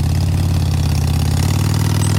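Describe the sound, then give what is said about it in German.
A motor vehicle engine on a mountain pass road runs with a loud, steady, low throbbing hum that holds an even pitch from start to end, with no voices. “Es hat darum viel Verkehr über den Pass. Pendlerinnen und Pendler auf dem Weg zum Arbeiten oder zum Einkaufen, ein Postauto und Lastwagen.”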